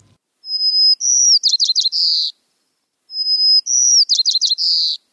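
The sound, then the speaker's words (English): White-crowned sparrow song, given twice in identical phrases, each opening with a sustained high clear whistle and ending in a run of quick, buzzy, high-pitched chirps, loud and alone with silence between. “that, of course, was the sweet sound of a white-crowned sparrow”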